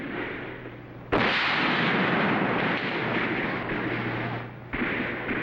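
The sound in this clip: Musket gunfire in a battle: two sharp, loud reports, each bursting over a continuous roaring rumble of battle noise that fills the whole stretch.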